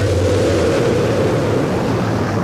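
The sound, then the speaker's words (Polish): Space shuttle main engines start at launch, giving a loud, continuous, broad roar with a heavy low rumble that stays steady throughout. “5, 4, we've gone for main engine start, we have main engine”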